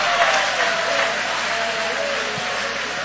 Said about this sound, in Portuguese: joga a mão para cima então e aplaude a Ele.